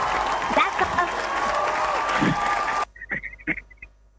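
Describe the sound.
An audience at a Christian worship gathering applauds and cheers, with a thick burst of clapping that cuts off abruptly partway through. A few short, quieter sounds follow in near silence.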